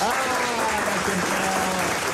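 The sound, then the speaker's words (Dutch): Canned applause started by the host on a Dutch radio morning show, a dense, continuous clapping wash at an even level from start to finish, with faint tonal lines under it. “En moet ik dan nu zelf dat applaus dan instarten?”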